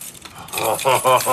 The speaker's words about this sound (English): Oh, you really need all these keys. Nah, this one's the master. I just keep the rest here because I like the jingle.